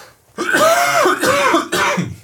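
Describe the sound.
A person clears their throat and coughs in three rough, voiced bursts that run close together, loud and alone with no talk.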